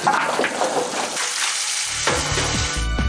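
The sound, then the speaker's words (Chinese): Water gushing and sloshing as small-tailed Han sheep mutton is put into cold water, a steady wet rush followed by a few soft splashes near the end. “冷水下入羊肉。”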